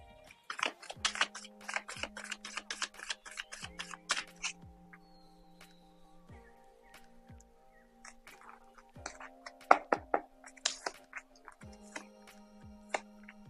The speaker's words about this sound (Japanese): それでは今日のカードリーディング始めていきましょう。カードシャッフルいたします。少々お待ちください。